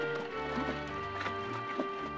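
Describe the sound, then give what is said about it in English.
Horses lope around a dirt track, their hooves giving a soft, rhythmic clip-clop. The hoofbeats are faint and sit beneath steady sustained tones throughout. “Justin glances at Figure, then watches the New York horses lope around the track.”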